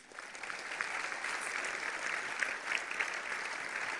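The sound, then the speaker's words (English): Church audience clapping hands during a sermon, a dense, steady round of applause that holds at an even level for about four seconds with no break. “Give Jesus a big hand clap.”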